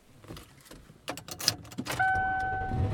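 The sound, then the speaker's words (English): Car interior while driving: low road rumble under scattered clicks and rattles, then a steady high electronic tone holds through the final second. “And I am driving around.”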